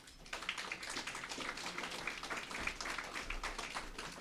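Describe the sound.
Audience applause welcomes a speaker at a talk on publicly funded research, a steady, fairly faint wash of many hands clapping that continues evenly for several seconds without any voices on top.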